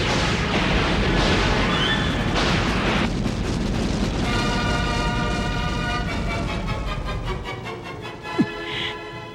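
Space fleet gunfire and explosions in a sci-fi battle: a dense, continuous roar of booming blasts and rumbling that thins slightly toward the end, with one sharper crack near the close.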